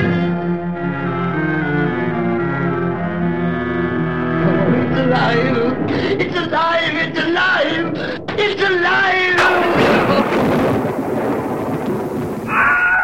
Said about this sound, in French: Citizen Kane, les Ghostbusters, c'est le bruitage d'orage qu'on entend dans Retour vers le futur, tout un tas de films comme ça